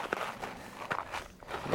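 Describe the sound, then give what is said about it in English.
Footsteps crunch and scrape on a steep icy trail as a hiker in trail shoes walks downhill, a few uneven steps landing as sharp, gritty impacts over a steady outdoor hiss. “Interesting coming down this because we are walking on straight ice.”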